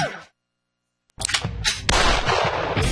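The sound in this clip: Gunshots at a shooting range come after near silence. There are a few loud, sharp blasts, and a heavy rumbling wash of sound carries on between and after them.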